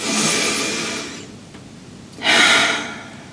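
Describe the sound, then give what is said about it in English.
Deep breaths taken during a timed breathing exercise: a long, loud breath of airy noise that fades away, a short pause, then a second strong, rushing breath that swells and tails off. “And when you're ready, deep breath in”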